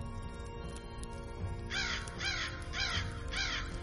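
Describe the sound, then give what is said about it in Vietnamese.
A crow caws at night, giving four harsh, rasping calls in an even rhythm over a low steady background hum. “Tiếng con quạ vang lên trong đêm tối mịt mù, nhưng không ai để ý tới nó.”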